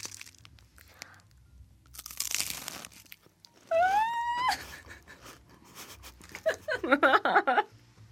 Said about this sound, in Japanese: パリパリパリパリパリパリ最高感度。いただきます。いくわよ、この食感の音を聞きたまえ。